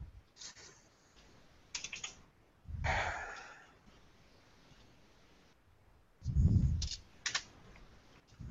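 Computer keyboard typing while entering a username in a chat, where the name pops up after the first letter: a few scattered key clicks with pauses between, plus a couple of low, breathy bursts.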